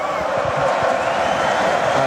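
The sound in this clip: A concert crowd roars and cheers as moshing starts up again, a dense, continuous wall of crowd noise with a voice speaking over it throughout.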